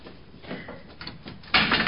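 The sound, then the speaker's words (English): A locked coin-operated door is tried, giving a few faint mechanical rattles and knocks before a louder, noisier rattling burst near the end. “It's locked. You'll have to put a penny in it.”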